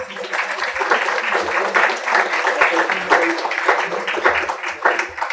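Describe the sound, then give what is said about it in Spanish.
Dense, steady applause from a forum audience welcoming a speaker at a gathering in defense of territory and Mother Earth, with many hands clapping at an even loudness throughout. “Le vamos a dar la palabra y les pido que lo recibamos con un aplauso, por favor.”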